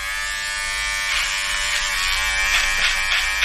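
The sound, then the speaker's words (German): An electric shaver buzzes steadily while shaving someone's neck, a loud, continuous high-pitched drone. Its texture roughens with a few stroke-like swells as the blade moves over skin. “Du rasierst mir jetzt ja gerade einen Hals.”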